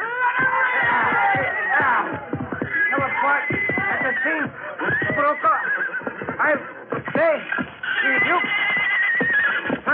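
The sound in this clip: An injured horse, bleeding under its saddle, neighs and whinnies over and over, its loud, strained cries rising and falling in pitch almost without pause.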